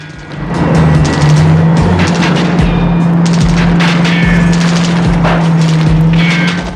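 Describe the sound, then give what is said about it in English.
A ballast truck crushing a car on a JCB: a loud, continuous heavy engine roar with a steady low hum, punctuated by repeated deep thuds and scattered metallic clanks and scrapes. “Mark jumps clear as the ballast truck crushes his car on the JCB.”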